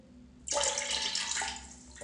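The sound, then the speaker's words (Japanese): A toilet flushes away collected urine with a sudden rush of running water that starts abruptly, stays loud and steady for over a second, then eases. “せっかく取ったんだけど流します。”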